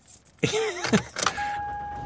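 A car on the drive home gives off a broad rumbling noise, with a short electronic chime and then a steady, thin high tone that holds to the end.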